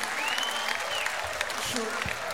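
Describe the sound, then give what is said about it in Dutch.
Applause from an audience for stage performers: fairly faint, steady clapping throughout, with a brief whistle early on and some voices mixed in. “Mag ik nog een groot applaus voor...”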